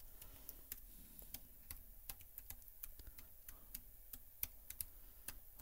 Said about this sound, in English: Can't type and talk at the same time.